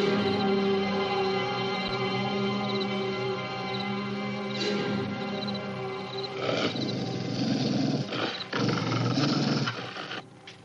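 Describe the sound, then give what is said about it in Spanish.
A dog growls in alarm outside a ranch, facing the vegetation: low, rough, rumbling bursts, a few of them in the later half, rising over a steady humming background with no talk. “Alguien corre por el campo y el perro se alarma mirando hacia la vegetación. El animal comienza a gruñir.”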